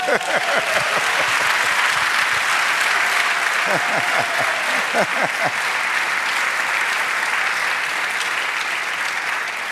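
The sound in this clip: Loud, continuous applause from a church audience during a Spanish-language sermon, a thick wall of many clapping hands with a few voices calling out over it partway through, lasting nearly ten seconds at steady volume.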